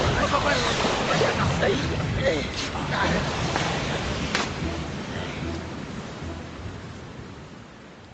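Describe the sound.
Heavy rainstorm with water pouring into a car: a loud, dense rushing roar of rain and water that stays steady, then gradually fades toward the end.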